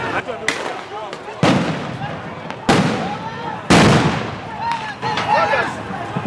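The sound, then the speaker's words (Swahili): Police gunshots fired into the air to scatter a street crowd, a few sharp, loud cracks at uneven intervals, each trailing into a broad rumble, with voices underneath. “polisi ilianza kufyatua risasi hewani na kutupa gesi ya kutoa machozi ili kuwatawanya watu.”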